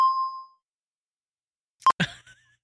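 A bell ding played from a soundboard: a clear tone rings out at the start and fades within half a second, then after a silence a second short ding is followed by a brief burst of other sound.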